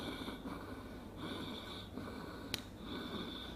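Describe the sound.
Slow breathing in and out through an inhaler spacer, soft airy breaths in a steady rhythm at a faint level, followed by one brief sharp click of the inhaler pump.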